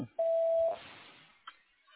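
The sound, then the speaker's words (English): Voicemail message tone: a single steady, mid-pitched electronic beep lasting about half a second, followed by a faint click and quiet line hiss. “Please leave a detailed message after the end of the tone.”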